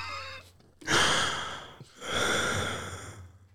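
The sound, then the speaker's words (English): A drawn-out yawn: two long, breathy swells, the first rising suddenly and then fading, the second broader and held longer before trailing off, with no talk over them. “You just yawn.”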